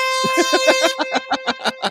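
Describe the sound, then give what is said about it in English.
Air horn sound effect blaring a bright, steady brassy tone, then breaking into many rapid, evenly spaced short blasts that stay loud throughout. “Oh, I can't wait for that first air horn on the moon.”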